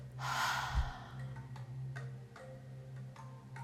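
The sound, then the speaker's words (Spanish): A deep breath during a guided relaxation exercise: a soft, airy inhale, then a long exhale, over a low steady hum with faint ticking. “Inhala muy profundamente. Y exhala.”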